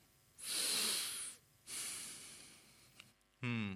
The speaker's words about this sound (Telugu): ఒకసారి ఊపిరి పీల్చు.